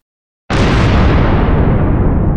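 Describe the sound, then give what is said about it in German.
An explosion sound effect bursts in abruptly after a moment of silence, a single loud, deep blast that keeps roaring and rumbling, its bright upper hiss slowly fading while the low rumble holds. “SCP-055-DEJ-Explosionen rocken!”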